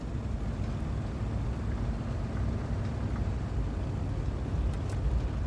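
Steady low engine rumble and road noise from a car being driven, holding an even, moderately loud level with no breaks and no voices.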